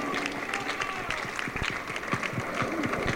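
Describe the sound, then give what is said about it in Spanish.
Applause from an audience at a political gathering, dense rapid clapping from many hands as a continuous crackling patter at moderate loudness, with a voice faintly mixed in beneath. “Fuerte aplauso para nuestra camarada Victoria Mata.”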